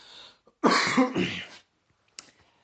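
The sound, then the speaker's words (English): A person clears their throat of something stuck in it, one loud, rasping burst lasting about a second, followed by a faint short click and brief quiet after. “Got something stuck in my throat.”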